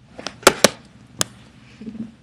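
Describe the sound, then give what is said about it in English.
A sex toy knocks against a computer, giving three sharp, distinct taps within about a second. Fainter rustling and handling noise fill the gaps between them. “If you heard that, that was my dildo hitting the computer.”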